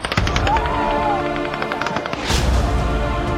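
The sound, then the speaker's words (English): Gunfire during a mass shooting in Las Vegas: loud, dense bursts of rapid shots that run together across the whole clip. “Las Vegas. The deadliest mass shooting in U.S. history. Everybody get down.”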